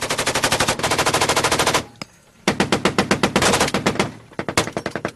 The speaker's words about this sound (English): Here's sound from the end of June when U.S. Marines were in a firefight with the Taliban at a smoldering compound of buildings.